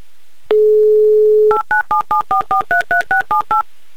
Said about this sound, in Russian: Я набираю ваш номер, надеюсь на ваш скорый ответ.